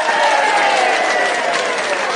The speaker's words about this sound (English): can we get an applause cue?